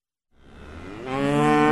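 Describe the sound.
A dairy cow lets out one long, full moo at Riverview Dairy Farm in Chippewa County. It starts after a brief silence and swells steadily louder, with a rich, resonant tone held to the end.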